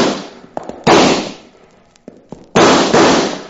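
Gunshots in a radio western shootout: two loud, heavy blasts with long, decaying tails, and a few smaller, sharper cracks scattered around and between them.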